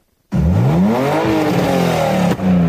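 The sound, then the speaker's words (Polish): A tuned car revs its engine at a car show on the green grounds of the Lublin University of Technology. After a brief silence the loud engine bursts in, its pitch climbing and then wavering, with a short dip before it ends. “Wszystko na terenach zielonych Politechniki Lubelskiej, gdzie cały dzień słychać było pisk opon i ryk silników.”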